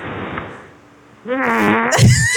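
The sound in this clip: A queef sound effect plays in a phone voice message, a loud, wet, sputtering blurt. A soft, breathy rumble comes first, then a buzzy, flapping burst that gets louder toward the end.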